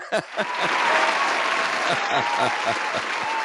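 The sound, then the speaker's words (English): Applause from a variety show audience: dense, steady clapping that begins with a few sharp, separate claps and then holds at an even, fairly loud level throughout. “Now you got the full on applause from the peanut gallery. The full on clap. The full on clap is here.”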